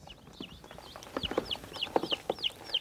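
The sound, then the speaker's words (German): Hens and a turkey hen in a makeshift brooding coop cluck softly, mixed with many high, repeated downward peeping calls; the sounds are faint and scattered throughout. “Weil sie nicht genug brutwillige Hühner hatte, ist auch noch eine Putenhenne in den Behelfsstall eingezogen.”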